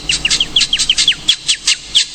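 Birds chirping in a rapid series of many bright, high calls, each sliding downward in pitch, loud and evenly spaced over a low background hum.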